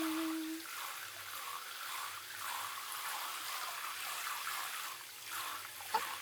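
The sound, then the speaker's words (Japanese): A handheld shower head sprays warm water onto a person's bottom, making a steady, soft hiss that stays even throughout. “シャワーヘッドちょうだい。お尻のお湯当てるね。”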